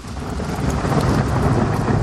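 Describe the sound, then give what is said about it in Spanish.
Heavy rain pours steadily with a low rumble of thunder, forming a loud, unbroken wash of noise throughout. “ha dejado de llover en la calle y está lloviendo aquí en el estudio número uno y único de Onda Latina”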